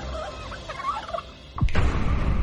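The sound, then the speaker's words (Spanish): A large turkey gobbling: a rapid, warbling gobble followed by a louder, rougher burst that sustains to the end. “Tad llamó al pavo Jack y le enseñó a seguirlo por toda la Casa Blanca.”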